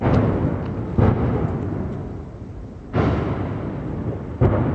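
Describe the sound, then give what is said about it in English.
Heavy artillery fire during fighting in a border buffer zone: a few deep booms strike at uneven intervals, each breaking sharply and trailing off into a long rolling rumble. “The heavy artillery fire here underscores that the border buffer zone is far from secure.”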